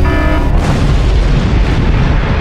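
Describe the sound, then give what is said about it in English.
Assault phasers fire in a space battle: a brief tonal whine gives way after about half a second to a loud, sustained explosive roar with deep rumble that fills the rest of the moment. “Charging assault phasers. Fire!”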